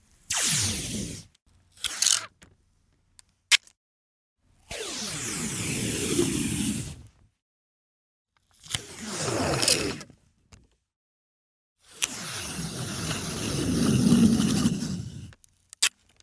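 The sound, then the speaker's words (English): Scotch tape being peeled off in several separate pulls, each a crackling, sticky rasp that swells and cuts off, with short pauses and a few tiny ticks between them. “That was the sound of peeling scotch tape.”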